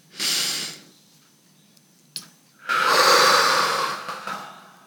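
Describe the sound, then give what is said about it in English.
Deep breathing during a guided relaxation exercise: a brief airy breath, a small click, then one long, loud, steady breath that slowly fades. “Let's let's take that deep breath in, that beautiful inhaling, right?”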